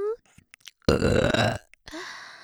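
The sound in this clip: A woman lets out a loud, long, rough burp lasting nearly a second, with brief soft vocal sounds before and after it.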